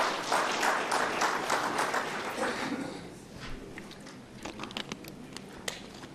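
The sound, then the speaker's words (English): Audience applause for the government at a public address on agricultural support programmes in Kunene: dense clapping that gradually thins and fades into a few scattered, separate claps near the end. “Please, can you please clap hands for our government?”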